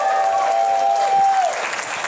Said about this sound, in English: round of applause for Josh Wolf